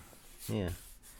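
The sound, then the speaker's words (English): Hand sanding of a panel for an artwork: a soft, continuous rasping hiss that runs throughout, briefly overlaid by a short vocal sound in the middle. “the panel on that. So I'm sanding it down a little.”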